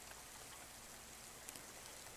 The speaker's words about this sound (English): I'm just gonna crash here until the rain stops, okay?